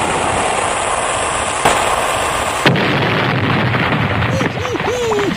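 Cannon fire from a ship: two sharp blasts about a second apart over a steady background noise, the second followed by a loud, sustained rumble.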